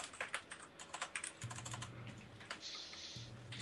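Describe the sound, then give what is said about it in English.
Typing on a computer keyboard while taking notes: faint, irregular bursts of quick plastic key clicks, some tapped in fast runs and others spaced apart, with no voices. “I hear typing in the background. Sorry, that's me. Taking notes.”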